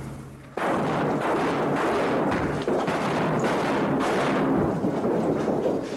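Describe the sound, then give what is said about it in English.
Flashbang charges exploding and a wall toppling over: an abrupt loud blast, then about five seconds of sustained dense rumbling and crashing debris with no talk. “The flashbangs went off. The wall toppled over.”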